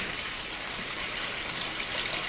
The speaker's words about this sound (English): stares at the water running from the tap and filling the bath.